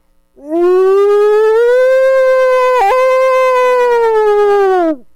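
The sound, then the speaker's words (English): A single loud, sustained wolf howl from among the popple trees, rising at the start, holding a steady tone with a brief dip midway, then sliding down as it fades. “And then a couple hundred yards away, the whole pack answers. And I got a pack of wolves down below me.”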